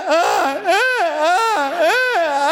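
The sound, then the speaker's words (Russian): A voice imitates a badly played violin wailing through a wall: a continuous high, wavering whine that swoops up and down several times, loud and alone. “Я слышу через стену, как скрипка просто просит, плачет. Вот это”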